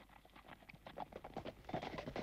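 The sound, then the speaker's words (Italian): Horses gallop with three riders, their hooves beating in a quick, steady clip-clop. Many overlapping hoofbeats run throughout, quiet but even. “E mentre vanno i tre di gran galoppo”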